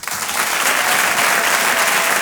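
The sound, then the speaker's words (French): A comedy club audience claps and cheers to welcome a comedian. The dense, loud applause stays steady throughout. “je vous demande un tonnerre d'applaudissements, s'il vous plaît, pour Walidia.”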